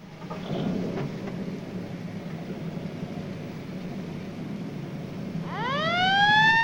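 An ambulance siren starts up as the vehicle pulls away, its loud rising wail with strong harmonics breaking in near the end over a steady low rumble.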